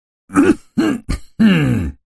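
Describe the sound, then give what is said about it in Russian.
A voice imitates choked coughing: four short, throaty bursts, voiced and groaning rather than dry, with the last one drawn out longest. No words are spoken. “Затем кашлянул еще раз.”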